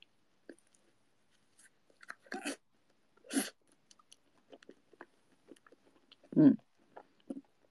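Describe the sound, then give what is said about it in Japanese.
Someone eats the last of an ice cream with whipped cream, making faint, scattered mouth clicks and smacks with a few louder soft bursts. “今ね、アイスの残り食べた。うん、うん、うん、うまっ。 最後の生クリームの部分おいしい。”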